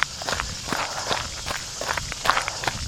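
Footsteps of a person out running, with many quick, regular footfalls that keep a steady rhythm over a constant outdoor background.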